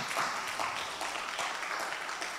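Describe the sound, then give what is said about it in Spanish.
Church audience clapping during a service, a soft, even spread of applause heard at a low level throughout. “Démosle fuertes palmas a Dios por su vida.”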